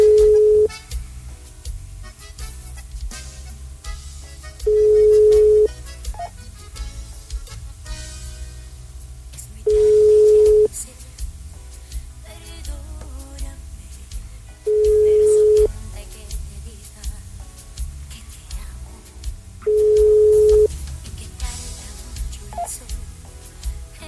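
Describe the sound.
Ringback tone of an unanswered telephone call after a redial: a clipped ring at the start, then four long, steady, mid-pitched rings about five seconds apart, with faint background noise between them.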